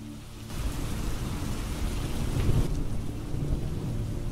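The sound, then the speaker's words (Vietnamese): A thunderstorm with heavy rain pours down steadily, with deep, rumbling thunder rolling underneath. The loud, dense hiss of rainfall stays constant and swells slightly toward the middle. “Trên bầu trời cơn mưa vần vũ cùng với tiếng sấm sét tựa như là tiếng trống trận đến đinh tai nhức óc.”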